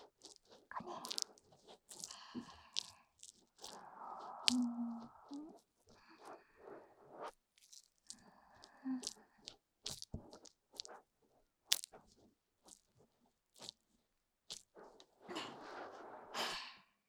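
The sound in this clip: Soft squishing and wet crunching as foamy lather is kneaded with the palms of the hands, a quiet, irregular run of squelches and presses with short pauses between them.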